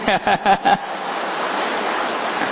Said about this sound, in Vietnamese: Tôi cho anh chàng pháo tay.